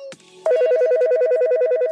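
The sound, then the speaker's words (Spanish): An electronic telephone rings in a radio studio during a call-in request show, a loud, rapid warbling trill that alternates between two tones at an even pace, preceded by a brief tone and cutting off sharply. “Órale, ¿de dónde es ese teléfono?”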